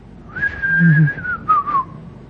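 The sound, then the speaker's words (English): A person whistles a clear, sustained note that dips slightly lower toward the end, then adds a couple of short, wavering lifts before fading out. “Gehazi, whatever position he was, half dancing, half whistling”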